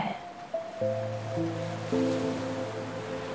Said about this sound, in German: Du lässt die Wellen über deine Füße schwappen und beobachtest sie dabei.